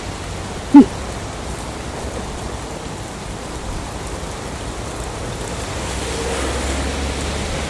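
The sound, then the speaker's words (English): Rain falls in a small park as a steady, even hiss of drops, with one sharp tap standing out early on. “Rain is brilliant, I think. The only time it's not cool is when you got to go to work.”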